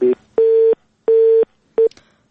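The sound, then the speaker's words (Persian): A telephone busy tone after a caller was cut off: a steady mid-pitched beep switching on and off in an even rhythm, with three full pulses between clipped ones at each end, loud and alone. “متاسفانه برادر ما تماس گرفتن اما تماسشان قطع شد.”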